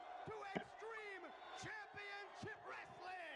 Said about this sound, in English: All right. We got a hyped crowd again. So it's the obviously beginning of the taping.